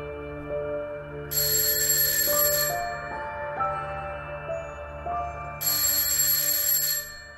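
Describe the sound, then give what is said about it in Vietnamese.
An alarm clock rings loudly in two bursts of bright, metallic bell ringing, each lasting over a second, separated by a pause. Soft background music plays underneath throughout. “Tiếng chuông báo thức treo lên inh ỏi”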